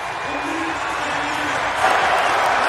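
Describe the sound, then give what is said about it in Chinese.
A stadium crowd roars for a runner during a distance track race as he leads into the final sprint, a dense, steady wash of cheering that swells slightly louder near the end. “全场都在给阿尔姆格伦去加油助威”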